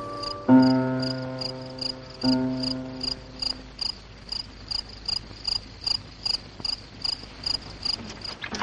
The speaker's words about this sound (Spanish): mientras comienza a anochecer y los grillos inician su canto